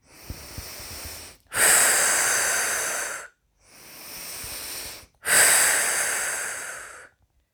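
Slow breathing during a guided relaxation exercise: two cycles of a soft inhale followed by a longer, louder, hissing exhale, with no talk over it.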